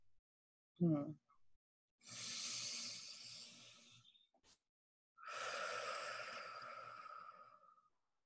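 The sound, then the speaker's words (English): A person takes a deep breath. A brief voiced sound comes first, then a long, airy inhale and, after a short pause, a long, drawn-out exhale, all soft and unaccompanied. “I'm going to take a deep breath here.”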